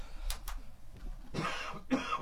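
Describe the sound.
Someone coughs to clear a frog in the throat: two short, sharp coughs come first, then a longer, rougher rasp of throat clearing.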